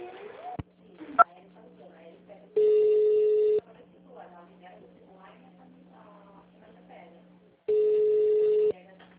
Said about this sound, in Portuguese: Só um pouquinho que eu vou passar no ramal dela.